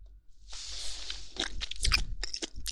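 Someone bites into chicken and chews it, a run of soft, irregular crunches and wet chewing noises with brief louder snaps.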